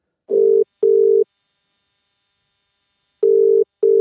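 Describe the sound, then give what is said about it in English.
Telephone ringback tone while calling an office supplies shop: two double rings, each a pair of short mid-pitched buzzes, separated by a long silent gap. “All right, I'll ring them.”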